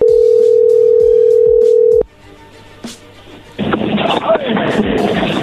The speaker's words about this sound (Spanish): Ya colgó Choco. Márcale de nuevo.